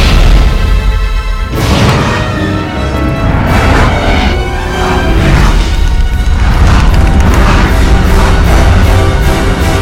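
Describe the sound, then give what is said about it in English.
A rocket going off with booming, crashing blasts, loud and dense throughout, with heavy layered rumble and several sharp bursts across the span. “I just lit a rocket. Rockets explode!”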